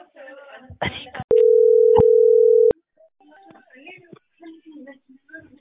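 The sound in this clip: A steady, loud telephone tone holds for over a second while a phone call is being placed, with people talking before and after it.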